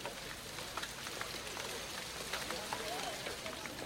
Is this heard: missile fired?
no

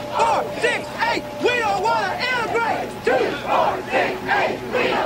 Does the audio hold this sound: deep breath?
no

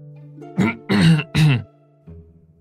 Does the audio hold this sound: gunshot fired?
no

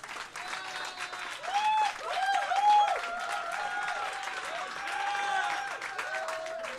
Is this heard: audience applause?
yes

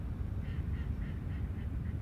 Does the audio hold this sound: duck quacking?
yes

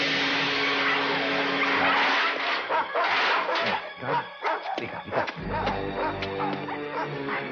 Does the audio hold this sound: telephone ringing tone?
no

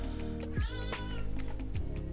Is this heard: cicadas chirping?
no

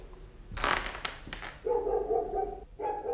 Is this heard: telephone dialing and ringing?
no

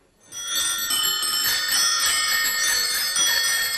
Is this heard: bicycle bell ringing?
yes

